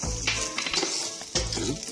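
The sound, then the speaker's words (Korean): Onions and garlic fry in a pan with a steady, dense sizzle and scattered crackles throughout. “Now we can cook the onions and the garlic. 우리 양파 넣을 거예요. And our garlic. 우리 마늘도 들어가요.”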